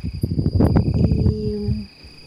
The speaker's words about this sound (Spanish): Muy al fondo se escuchan algunos grillos que ya empiezan a estridular.